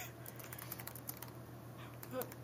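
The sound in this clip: Quiet, rapid clicks of fingers typing on a computer keyboard to run a Google search, with many light keystrokes in an uneven run.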